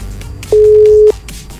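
Phone ringback tone on an outgoing call to a prize-promotion winner: one steady mid-pitched tone lasting just over half a second, with faint low background noise around it.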